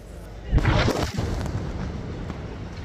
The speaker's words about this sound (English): A separate Israeli strike targeted a house in El Nusayrat camp in central Gaza. This video shows the moment the home was destroyed, followed by thick dust spreading across the city's market.